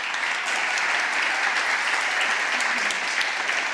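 A crowd applauds warmly to welcome a guest, producing a steady, dense wash of clapping at an even, fairly loud level across the whole clip.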